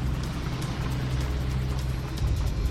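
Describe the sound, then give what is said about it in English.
A car drives slowly toward an entrance, its engine giving a steady low rumble that swells slightly near the end. “Eckhart drives slowly towards the entrance.”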